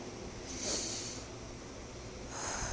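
A deep breath is drawn in, held and then let out during a guided relaxation exercise. Two soft, airy breaths are separated by a short pause, quiet and heard alone.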